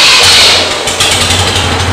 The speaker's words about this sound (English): I can start this up and let you hear it,